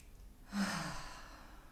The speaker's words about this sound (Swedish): Så ta ett djupt andetag in.